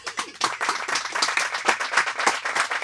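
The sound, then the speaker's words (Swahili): Applause for guest finance and business experts introduced before an interview: many quick, distinct hand claps in an uneven rhythm, moderately loud and continuing through to the end. “Makofi kwao.”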